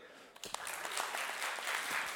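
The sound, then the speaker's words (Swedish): Audience applause greeting a guest's entrance, starting with a few scattered claps, then swelling into dense, steady clapping that holds to the end. “Snygg entré. Där är min kompis från gymmet. Ska jag applådera honom?”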